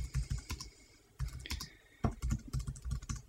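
Rapid typing on a computer keyboard: clusters of crisp, clattering keystrokes come in quick bursts, with short pauses between the bursts and no voices.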